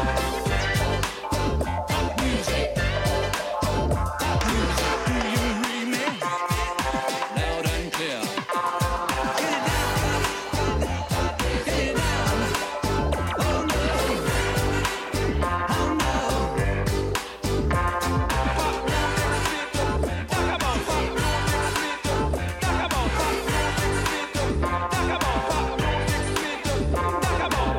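A dance remix of a synth-pop song drives along at full volume for the whole stretch, with a steady pounding beat and dense synths, the low end briefly thinning out for a few seconds before the groove returns.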